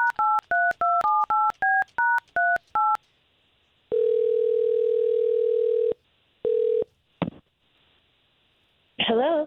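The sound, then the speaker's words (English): A telephone number is dialed as a quick run of touch-tone beeps. A long steady tone follows, then shorter tone bursts and a click, and a voice briefly answers at the end. “All right, well, here, let's give Lisa a call.”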